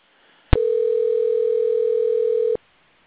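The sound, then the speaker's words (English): A telephone ringing out on a call placed during a live show: a single steady electronic ring tone lasting about two seconds, starting and stopping abruptly, heard alone. “All right, as you can hear us calling Brian.”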